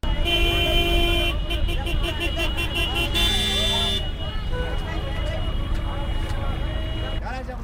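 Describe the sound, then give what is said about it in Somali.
Car horns honk amid the bustle of a bus station in Djibouti city, where touts rent out buses serving different neighbourhoods. Loud, dense and continuous, with repeated toots and steady traffic noise under voices. “Halkani waa xarunta laga raaco basaska ee Blas Rambo ee magaalada Djibouti. Codkaad maqleysaana waa kirishbooyada kireeya basaska u kala goosha xaafadaha kala duwan ee magaalada Djibouti.”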